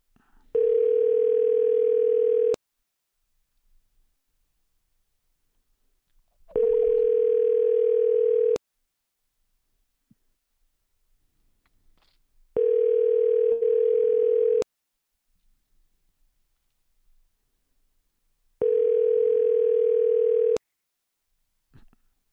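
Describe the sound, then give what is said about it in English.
Telephone ringing tone heard while dialing out: four long, steady mid-pitched buzzing tones, each about two seconds, separated by silent gaps of roughly four seconds. “Yeah, supposed to be dialing.”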